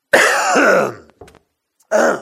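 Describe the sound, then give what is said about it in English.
A man coughs and clears his throat: a long, loud, raspy hack, a brief soft grunt, then another harsh throat-clearing burst. “Hold on, I got to have a cough and spill.”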